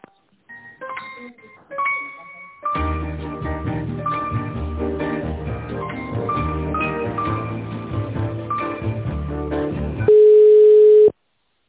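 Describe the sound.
Telephone line tones play while a call is transferred. A few short electronic beeps give way to tinny hold music for several seconds, which ends in a single loud, steady tone lasting about a second.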